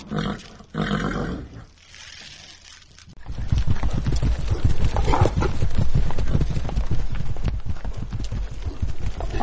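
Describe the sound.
Hooves of a ridden horse clip-clop in a steady, rapid rhythm of many beats after a louder rushing sound at the start.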